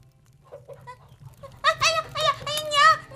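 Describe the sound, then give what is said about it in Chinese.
Chickens clucking as they are fed, with a few faint calls early on, then a run of louder, short harmonic clucks over the second half above a low background hum. “哦，对了，那鸡还没喂呢，奶奶去喂鸡啊。”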